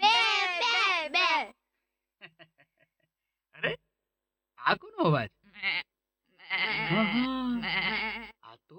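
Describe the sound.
Goats bleat: three loud, wavering bleats at the start, a few short scattered calls, then a long, drawn-out bleat over a low rumble.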